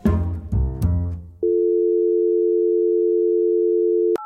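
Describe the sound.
Telephone call tone while phoning an architecture firm: a brief burst of mixed sound gives way to one loud, steady, unbroken tone lasting nearly three seconds, then a higher tone cuts in at the very end.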